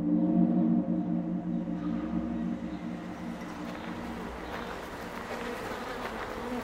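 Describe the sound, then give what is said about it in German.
A colony of about 50,000 honey bees kept near the German parliament buzzes around its hive in a soft, steady, droning hum that eases slightly after the first few seconds. “Das sind die Bienen aus dem Bundestag, 50.000 Bienen. Die sammeln ordentlich Honig”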